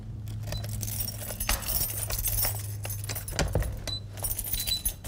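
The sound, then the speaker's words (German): Keys jangle and clink as a door is unlocked leading to a small archaeological excavation zone beneath a castle in Marburg: rattling metal for several seconds, with a sharper clink around the middle. “Aber da gibt es schon eine Tür, die wir aufschließen können.”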